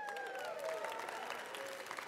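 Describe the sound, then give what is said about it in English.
Audience applause, a dense, steady patter of many hands clapping together that holds at an even level for about two seconds. “Some of us are applauding. That's good. That's good.”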